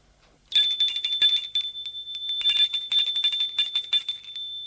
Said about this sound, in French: L'on vient de sonner pour le dîner.